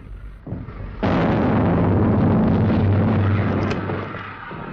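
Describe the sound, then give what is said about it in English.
Heavy artillery fire with shells hitting a warship as it runs back past the Amethyst. A low rumble gives way to a sudden loud blast at about one second, which swells into a sustained, roaring barrage and eases only slightly by the end. “The consort heads back past the Amethyst under a storm of artillery fire and takes several hits.”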